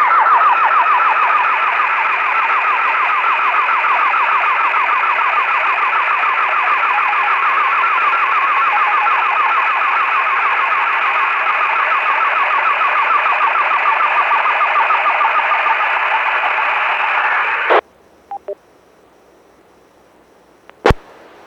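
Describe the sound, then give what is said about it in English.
A slow scan TV (SSTV) radio signal, received away from its usual frequency, sounds as a loud, steady buzzy warble with a fast pulsing rhythm for about seventeen seconds, then cuts off, leaving a few faint clicks. “Interesting, because slow scan TV does just have this rhythm to it. Like that one, you even just hear the bup, bup, bup, bup, bup, bup, bup.”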